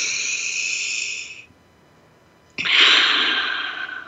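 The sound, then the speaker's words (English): A deep breath taken together in a guided breathing exercise: a long, hissy, airy breath fades out, and after a silent gap of about a second a second breath starts abruptly, louder and fuller. “So let's take a breath together.”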